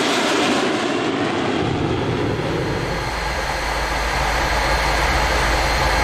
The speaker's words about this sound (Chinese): 十二系统装在了一架轰炸机上